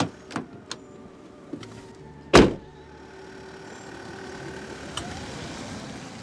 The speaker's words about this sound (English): That is the sound of an electric car, a very, very fast electric car.